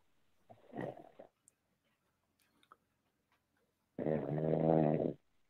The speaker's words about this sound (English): the snoring ensues.